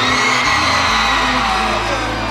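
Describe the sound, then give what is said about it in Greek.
An audience at a live show screams on cue, a loud, continuous mass of high-pitched shrieks, yells and whoops that holds steady from start to finish. “Για ανοίξτε μια τσιρίδα να ακούσω.”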